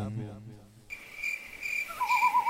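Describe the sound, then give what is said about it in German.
Crickets chirping: high, sustained trills that begin after a short opening and continue as a faint, steady, shimmering drone. “Sie haben die Schnauze voll vom ewigen Grillengezirpe und sanften Blätterrascheln.”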